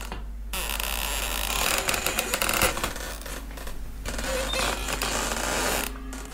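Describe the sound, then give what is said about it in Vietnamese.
A door creaks as it is pushed open: a rough, grinding creak that starts abruptly and drags on steadily for several seconds, with short breaks and no voices. “Tiếng cánh cửa kèn kẹt được đẩy ra, nghe nó va mị lắm.”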